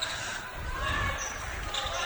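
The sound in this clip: Basketball dribbled on the court during a high school game involving Standish and the Lancers, repeated low thuds under a commentator talking and a constant murmur of crowd noise.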